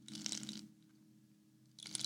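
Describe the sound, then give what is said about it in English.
A shaker rattled like a packet of crisps, two bursts of dry, crunchy granular rustling, one at the start and one at the end, with a quieter lull between them. “But when you do that, that just sounds like you're just shaking a packet of nuts. It's any old shaker, isn't it? It just sounds like a packet of crisps.”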